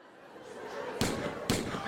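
Gunshot sound effect depicting the 1981 shooting of the Pope in Rome: two sharp, loud bangs about half a second apart over a low background.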